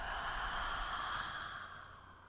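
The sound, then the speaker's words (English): A deep breath in and out during a guided breathing exercise, heard as a soft, airy rush of air that holds steady and then slowly fades, with no talking. “Deep breath in and out.”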